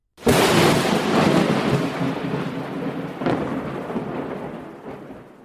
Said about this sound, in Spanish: el relámpago del Catatumbo.